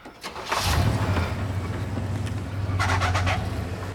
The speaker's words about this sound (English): Brandon and the others watch dejectedly as the car pulls off into the night.